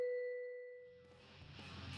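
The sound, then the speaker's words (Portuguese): A bell-like ding opens the intro jingle of an NFL show, its clear sustained tone fading over about a second before a broad, noisy swell rises and fills the rest. “Olha a vinheta. Pacumbi apresenta Toque Passa NFL.”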